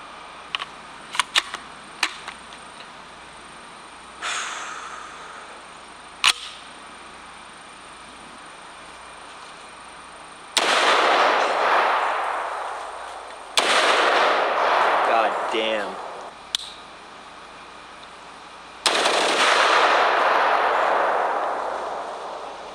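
Gunshots from rifles firing 5.56 and .50 Beowulf rounds loaded in PMAG magazines, sharp cracks scattered irregularly, some trailing into long booming decays, separated by quiet gaps.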